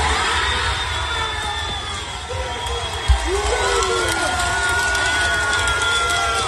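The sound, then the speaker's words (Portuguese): A packed courtroom audience erupts as a jury acquittal is announced, with a continuous noisy mix of crowd voices, shouts and whoops and a single sharp thump near the middle. “Aí a reação do público no momento da decisão, da absolvição, da divulgação da absolvição, estava lotado, lotado, né?”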